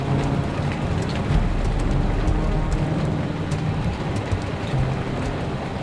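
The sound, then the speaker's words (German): Sleet and hail drum against a window in a storm: a dense, steady pattering with a continuous low rumble beneath, loud and unbroken throughout. “Das waren keine Regentropfen, was da gegen unser Fenster trommelte. Schnee. Graupel, Hagel, echtes Sauwetter.”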